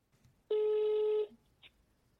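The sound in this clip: A single steady electronic telephone tone sounds while placing a phone call. It holds evenly for under a second and is followed by a short, faint blip, with no voices.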